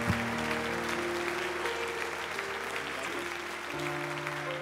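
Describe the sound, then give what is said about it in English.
A church audience applauds to welcome a missionary serving in Malaysia, steady dense clapping that holds at an even level from start to finish. “Would you put your hands together one more time and welcome missionary Lonnie Vestal today in Jesus' name.”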